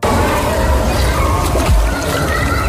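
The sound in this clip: Water churns and sloshes after a dive that lands without a belly flop, a loud, continuous, noisy rush that begins abruptly and holds steady throughout.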